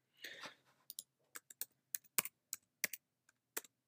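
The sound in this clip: Rapid keystrokes on a computer keyboard while a search is typed: many crisp, separate clicks in an uneven rhythm, opening with a brief rustling burst and then alone with no voices.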